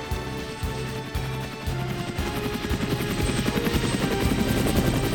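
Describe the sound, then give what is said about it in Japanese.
A video-game helicopter departing with a rhythmic rotor chop. The pulsing beat grows denser and gradually louder over a few seconds, with no voices. “ヘリに乗ってお別れするぞ。”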